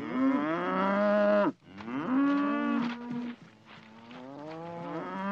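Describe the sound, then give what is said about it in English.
Cows lowing in a few long, loud, bellowing moos, one after another with brief gaps and no talk. “Cows stand in a corner.”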